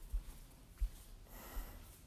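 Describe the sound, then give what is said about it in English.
Heavy, huffing breaths from someone in a hot room with no air circulation, three low, faint puffs spaced at fairly even intervals, heard alone. “It's hot as a motherfucker in here. That's why I'm breathing like this, bro.”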